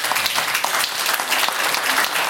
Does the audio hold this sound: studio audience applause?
yes